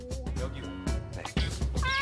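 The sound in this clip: Cats meowing while eating food set out in separate portions, with short, higher-pitched meows over a person talking.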